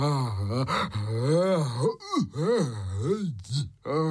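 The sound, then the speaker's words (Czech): A voice performs the groaning and panting of a fat, breathless character worn out from chasing. A series of strained, wavering groans rise and fall in pitch, broken by short, sharp gasps for breath. “Hekal Pučmelout.”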